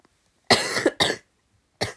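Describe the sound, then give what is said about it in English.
Three harsh coughs come from a person who has been sick for a week. The first two fall close together, and the third follows after a short pause. Each is loud and abrupt with quiet between. “apologize for all the coughing”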